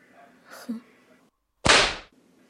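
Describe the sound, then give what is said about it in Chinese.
A whip lashes across someone's back in a single sharp, loud crack that cuts through the quiet after a few faint, soft sounds. “这支鞭子真没白抽呢。那么先从背上开始。”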